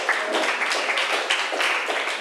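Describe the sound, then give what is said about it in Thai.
Students in a classroom clap for a classmate, a dense, even patter of many hands at moderate loudness that holds steady to the end. “เก่งมากค่ะปรบมือให้เพื่อนหน่อย”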